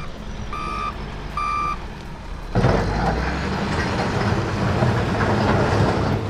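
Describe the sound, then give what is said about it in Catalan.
Excavators working in a settlement in Palma: two high reversing beeps sound over an engine hum, then a loud, steady rumble of heavy machinery with rattling and clanking takes over. “És el so de les excavadores actuant de nou al poblat de Sombany, a Palma.”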